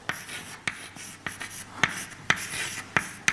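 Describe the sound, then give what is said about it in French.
Hand-writing an equation: many short, scratchy pen strokes come in a loose, irregular rhythm, quiet and dry, with no voices. “Ce que je veux, c'est écrire une équation pour la probabilité”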